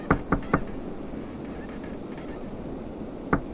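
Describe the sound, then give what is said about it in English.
Knocking on the door of an ice house on snowy Mille Lacs Lake: three quick knocks, a pause filled with steady wind-like hiss, then two more knocks. “I walked through the snow and approached Frank Jones's ice house and knocked on the door.”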